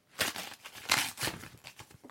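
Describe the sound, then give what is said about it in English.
A paper envelope is ripped open along its last uncut stretch in a series of rough tearing and crinkling bursts. The bursts are fairly loud and come one after another, with no talking. “It's ripped down one side, but it's here. And I'm just going to rip the last bit.”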